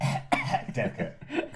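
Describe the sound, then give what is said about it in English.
A person coughs into a handkerchief, a rasping run of several short hacking bursts, fairly faint and alone. “Coughing into the hanky.”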